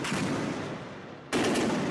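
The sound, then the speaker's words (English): Gunfire in the streets of Aden, Yemen: dense, rattling bursts of shots merge into a harsh crackle that eases slightly, then a sharp loud burst resumes partway through. No voices are heard. “Gunfire in the Yemeni city of Aden causes panic on the streets”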